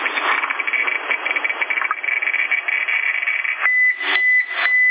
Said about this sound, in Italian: Questo è il suono di un contatore Geiger quando segna radiazioni.